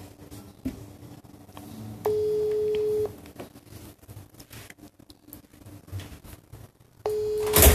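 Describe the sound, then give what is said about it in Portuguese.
Ringback of an outgoing telephone call: two long, steady single-pitch tones, each about a second, separated by a quiet gap with faint clicks. The second tone is cut off at the end. “Vamos tentar aqui a nossa ligação. Vamos lá.”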